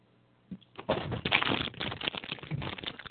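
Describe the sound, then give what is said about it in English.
Someone unwrapping things: after a soft bump, a crinkling, crackling rustle of wrapping starts up and continues unevenly in dense bursts. “Stop unwrapping things.”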